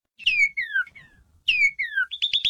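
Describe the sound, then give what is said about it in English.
A northern cardinal sings two phrases of loud, clear, downward-slurred whistles, then a short run of three quick, rising chirps. “The bright red northern cardinal sounds like this.”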